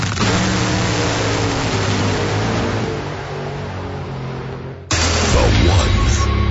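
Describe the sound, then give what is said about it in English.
A top fuel dragster roars at full throttle at an NHRA drag race, a loud, dense, rumbling engine blare. The sound sags slightly, then jumps abruptly into an even louder burst near the end. “It's top fuel drag racing going 330 miles an hour.”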